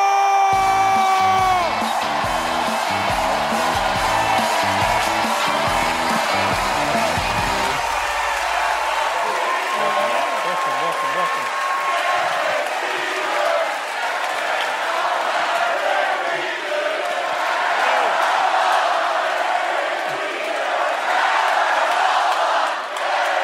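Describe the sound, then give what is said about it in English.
A studio audience cheers for Derek Jeter, former New York Yankees captain and five-time World Series champion, with loud, sustained whoops and yells from the crowd that hold steady throughout. “Like, people start chanting my name because you're like, that's never happened to me.”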